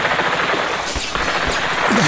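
Rapid gunfire right after an order to open fire, set in Prague: a dense, loud, continuous rattle of shots with no pauses, filling the whole moment.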